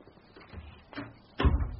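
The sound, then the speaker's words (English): A door being closed: faint shuffling and a brief creak lead into a single low thud as it shuts, quiet overall. “And close the door. We don't want any drafts.”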